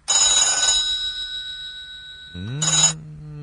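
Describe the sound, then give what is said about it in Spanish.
A telephone rings in two loud, brassy bell bursts, a longer one at the start and a shorter one near the end, with a steady ringing tone lingering between them. “Suena el teléfono, termina el audio.”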